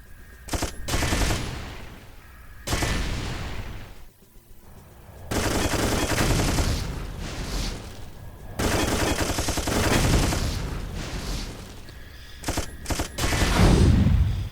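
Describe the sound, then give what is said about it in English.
Machine gun fire in a base-defense video game comes in several long, dense bursts of loud rattling shots, separated by short quieter pauses. “Machine gun.”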